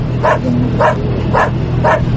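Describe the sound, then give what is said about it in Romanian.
A drug-sniffing customs dog at the Tudora customs post barks four times in an even rhythm, each bark short and sharp, over a steady low hum. “De către BOS, câinele antidrog, care de 5 ani îi ajută pe cei de la Vama Tudora pentru că are și un miros de 120 de ori mai sensibil decât cel al omului.”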